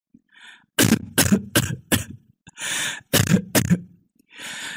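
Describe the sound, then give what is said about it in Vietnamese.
Harsh, heavy coughing from an old woman who is seriously ill, coming from inside the house at night. A few loud coughs arrive in two clusters, with rough, breathy rasps between them. “Từ bên trong nhà vang lên đều đều tiếng ho dài của bà.”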